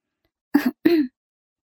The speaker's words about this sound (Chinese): 黄玉梅又轻咳了两声